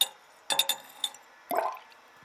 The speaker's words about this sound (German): Ich nehme Harrys Blut, gieße es in den Maßzylinder und teile es in Portionen